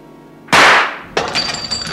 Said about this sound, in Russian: Из отбитого горлышка бутылки брызнуло шампанское.